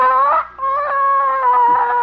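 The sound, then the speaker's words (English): A hen squawks and clucks while someone reaches in to take her egg: loud, nasal, harmonic calls that break off briefly, then resume as a long steady call. “no hen can intimidate me. I'm going to get that egg.”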